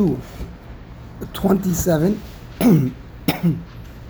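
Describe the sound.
Throat clearing breaks into a lecture: a few harsh, rasping bursts spread over several seconds, each with a rough voiced rumble, separated by short pauses.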